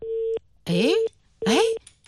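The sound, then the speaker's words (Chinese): A mobile phone rings unanswered with an electronic melody ringtone: a steady electronic tone, then two bright bursts of rising chirps with a pause between them, loud and clear. “这个按说不应该没人接呀，是吧？医院。你万一客户给您打电话呢？而且是个手机，怎么没人接呢？”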